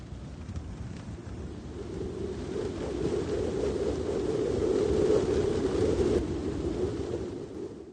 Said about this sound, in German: Wir können den Wind zwar nicht sehen, aber Wind kann Drachen steigen lassen, Bäume schütteln oder um die Häuser pfeifen. Das hört sich so an.